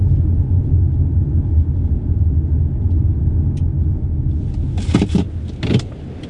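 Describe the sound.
A car drives toward Bottle Lake Forest with a steady, loud low engine and road rumble throughout, joined near the end by a few brief rattling bursts.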